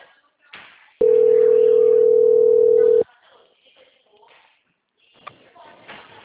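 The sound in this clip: A steady, single-pitched telephone tone sounds for about two seconds while a call is being transferred, set between stretches of faint, muffled line voices.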